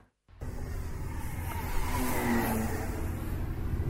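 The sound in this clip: A model airplane engine starts abruptly after a brief silence and drones with a steady, buzzing whine whose pitch climbs slightly midway before holding level.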